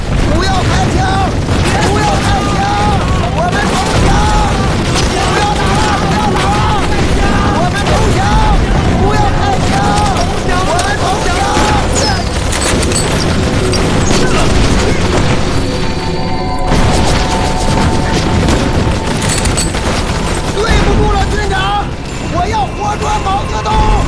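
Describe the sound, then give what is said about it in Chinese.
Battle gunfire and booming explosions, dense and continuous, with voices shouting over the din; the roar holds steady throughout and thins briefly near the end. “不要开枪！不要开枪！我们投降！不要打了！不要打了！我们投降！不要开枪！我们投降！”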